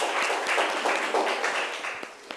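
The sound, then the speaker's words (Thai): Students in a classroom applaud a group of classmates, with a brisk, continuous patter of many hands clapping at moderate volume and a few sharper claps near the end. “โอเคค่ะปรบมือให้เพื่อนจากกลุ่มที่5หน่อยนะคะ”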